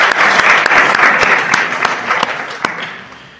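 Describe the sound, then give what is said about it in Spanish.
Loud, dense applause from an audience, many hands clapping in a steady roar with a few sharper claps standing out, easing and fading toward the end. “Un aplauso.”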